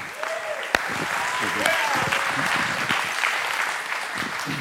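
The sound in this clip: Audience applause welcomes a pastor to the stage at a church service. The clapping is dense and steady for the whole stretch, with a few voices mixed into the crowd.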